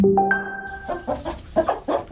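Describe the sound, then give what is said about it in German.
Hens clucking in a barn where they are kept indoors because of bird flu. Many short clucks follow each other in an uneven, bubbling rhythm, loud and without talk. “Ja, da gackern die Hühner im Stall raus, dürfen sie nicht mehr wegen der Vogelgrippe”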